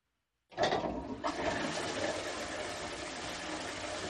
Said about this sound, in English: This is the sound of diarrhea flushing your day away.